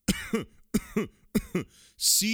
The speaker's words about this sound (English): C-O-U-G-H, coughing.